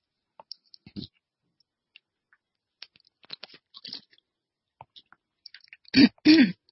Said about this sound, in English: Excuse me. Let me get a drink.